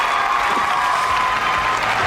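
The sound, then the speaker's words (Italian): Studio applause, a dense, steady patter of clapping that holds at an even, fairly loud level for about two seconds without a break. “Applauso.”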